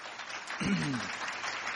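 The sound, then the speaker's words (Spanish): Applause from an audience at the United Nations after a speech, heard as a steady wash of clapping that runs throughout the short clip beneath a speaking voice. “Bueno, un aplauso, pues.”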